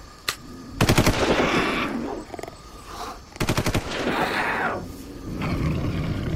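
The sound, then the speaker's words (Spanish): Gunfire shot into the air: one sharp crack, then two rapid automatic bursts of several loud shots each, separated by a rumbling, roaring noise. “Dispara al aire para que se espanten.”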